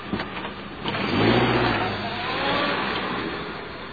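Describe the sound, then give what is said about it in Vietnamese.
A car engine swells as the car pulls away and drives off, a mid-pitched motor that rises, dips, then holds a steady hum, with no voices. “xe hơi rút chạy”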